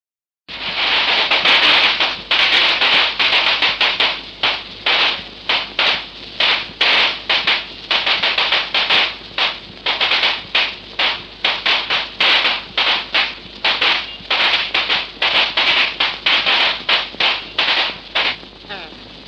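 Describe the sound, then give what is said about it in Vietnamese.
A long string of firecrackers going off as a groom's wedding party arrives, a dense, loud crackle of many rapid, sharp bangs that runs almost without pause from start to finish. “tiếng pháo nổ đàn trai đến.”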